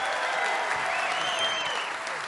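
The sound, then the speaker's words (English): Fans at an NFL team town hall event applaud players Eli Apple and Sterling Shepard. The loud, continuous clapping stays at an even level throughout, and a high, wavering whistle cuts through the middle. “How about a round of applause for Eli Apple and Sterling Shepard,”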